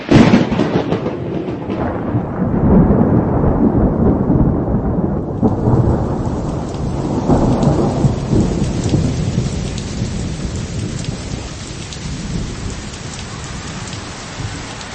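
Heavy rain pours down in a loud, continuous hiss while thunder rolls and rumbles low beneath it, a storm sound effect for a flood story, with no voices.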